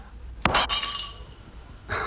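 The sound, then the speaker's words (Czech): Glass shatters with a sudden sharp crash, followed by a bright tinkling of shards that slowly dies away. A second brief crunch of glass comes near the end. “Střepy znamenají štěstí.”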